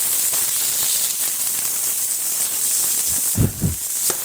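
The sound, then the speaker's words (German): Chopped orange with its peel sizzles in a pan with roasted onions, a steady loud hiss that surges into a couple of louder crackling bursts near the end. “Okay, die Zwiebeln sind angeröstet. Wir widmen uns wieder der Soße. Jetzt gebe ich die Orange dazu.”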